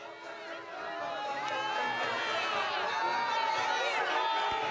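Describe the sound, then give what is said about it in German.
A crowd of faithful in St. Peter's Square, Rome, greeting the pope as he passes in the popemobile during a general audience: a dense, continuous murmur of many voices with cheering that grows a little louder and stays steady. “Papst Leo XIV. Ist bereits auf dem Petersplatz unterwegs. Im Papamobil fährt er durch die Menge, begrüßt die Gläubigen, genießt sichtlich den Kontakt.”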